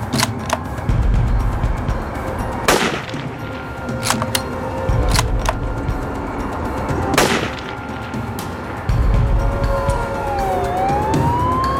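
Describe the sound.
A police car siren wails faintly near the end, arriving at a crime scene after several sharp, loud bangs like gunshots sound over a steady low rumble.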